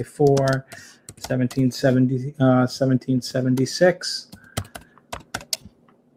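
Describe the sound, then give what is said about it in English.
Computer keyboard typing as a date is entered, a quick run of light clicks that follows a stretch of a man talking and continues between his words. “I can go ahead and just type in,”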